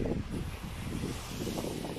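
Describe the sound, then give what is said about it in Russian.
Wind buffeting a microphone outdoors makes a constant low, rumbling roar with irregular gusty thumps and a hiss on top, with no voices. “Поворачиваюсь, ветер сбоку. Ветер в лицо. Хороший такой, неплохой ветерок.”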